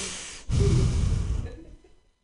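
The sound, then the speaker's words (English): A single loud inhale into a very sensitive microphone at an open mic comedy night, a breathy rush that holds for about a second and then fades to quiet. “This is a really loud mic. You can hear me inhale.”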